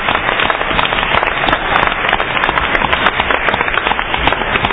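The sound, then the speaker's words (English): Audience applause at a major musical event at Cornell, greeting the headlining act. Dense, steady clapping holds at an even loudness for nearly five seconds, with no voices over it. “all right, I have a round of applause for Slowplay 2009.”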